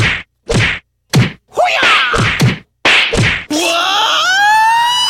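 A rapid series of loud smack and thwack sound effects, separated by brief gaps, ends in a sustained rising, siren-like tone.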